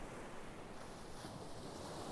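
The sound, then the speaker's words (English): Ocean waves roll in as a steady, loud wash of surf, a continuous broad roar without pause or voices. “You already listening in the background. There is a beautiful wave in the ocean.”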